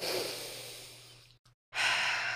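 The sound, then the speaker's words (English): A deep, slow breath: a long airy rush that gradually tapers off, a brief silence, then a louder breathy surge of air. “I'm gonna take a deep breath with y'all.”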